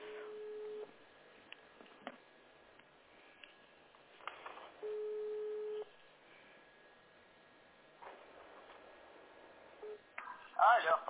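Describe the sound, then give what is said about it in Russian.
A ringback tone on a telephone line as a call is placed to a local service, with two long steady tone bursts about four seconds apart and a few clicks over a faint hum. “Сейчас я прям при вас и позвоню, хорошо?”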